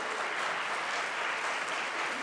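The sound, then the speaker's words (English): A round of applause from an audience at a presentation: dense, even clapping that holds steady for the whole stretch, fairly faint and without a break. “a round of applause.”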